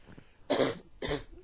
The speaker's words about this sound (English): Cough, cough.